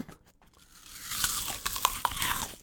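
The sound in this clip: Crisp bites and chewing of sliced apple that has begun to oxidize, with a few sharp, crunchy snaps over softer, wet mastication at a fairly quiet level.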